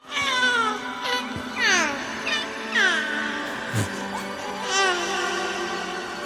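A baby cries in a television dream sequence set in home movie footage: a series of short, high, squeaky wails, several sliding downward in pitch, over a steady low background.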